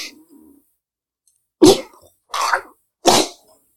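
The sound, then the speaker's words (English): A person coughs three times with harsh, abrupt bursts separated by short silences, each cough loud and raspy with a wet, throaty edge. “You start to move to convulse involuntarily, coughing. There's something. You begin to spit up. There's something in the throat.”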